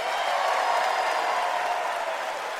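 Audience applause at a country music concert as a singer and her guitarist return to the stage, a dense, even wash of clapping and crowd noise that holds steady throughout.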